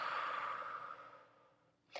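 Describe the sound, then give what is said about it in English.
A soft, deep breath out during a yoga session: a faint, breathy exhale that fades over about two seconds, ending with a brief puff of air. “Another deep exhale. One more breath. And breath out.”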